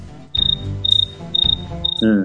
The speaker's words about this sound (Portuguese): Cara, bota o grilo agora. Bota o grilo. Bota aquele grilozinho. Cri, cri, cri, cri.